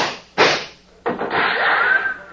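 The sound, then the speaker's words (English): Gunshot from a Western confrontation as a gun is shot out of a man's hand: two sharp, loud cracks about half a second apart, the second followed by a long, sustained rumbling tail. “Who shot that gun out of my hand? I did, mister.”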